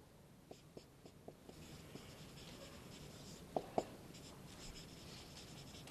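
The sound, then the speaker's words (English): Marker strokes on a lecture board, a run of short squeaky ticks in the first two seconds followed by two sharper, louder taps, all over a steady background hiss with no talking. “I'm trying to write bigger. I hope you can read that in the back.”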